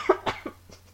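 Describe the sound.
A short burst of a few coughs, caused by a tickle in the throat. The first coughs are sharp and the later ones are fainter, trailing off quickly.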